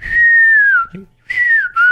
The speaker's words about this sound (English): I can't whistle, but if I could whistle, it would be like